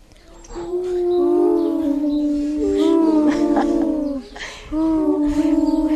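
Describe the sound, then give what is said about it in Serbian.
Voices imitate an owl hooting with drawn-out, wavering "hoo" tones at a mid pitch. The hoots are repeated several times with short breaks between them and are fairly loud. “Jel umeš ti da hučeš kao sova? Hu, hu. Ko još ume da huče kao sova?”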